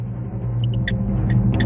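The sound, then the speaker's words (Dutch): Steady low rumble inside a moving car, a dense, even drone that holds constant throughout with no voices. “Je zit nu ook in de auto, ik hoor het, of niet?”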